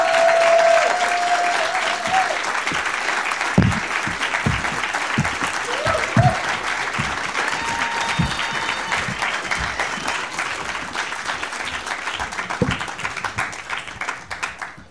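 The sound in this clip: A studio audience applauds and cheers as talk-show guests are brought out: loud, sustained clapping with whoops on top, easing slightly toward the end.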